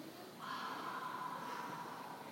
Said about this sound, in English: Exhale through the mouth.